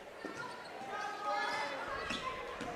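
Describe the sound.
A basketball being dribbled on a court during a women's game: a few soft, dull thumps of the ball under voices and steady crowd noise.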